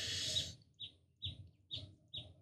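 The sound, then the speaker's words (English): Short bird calls: four brief, high chirps spaced evenly about half a second apart, following a short noisy burst at the start. No one talks. “Do you hear that bird?”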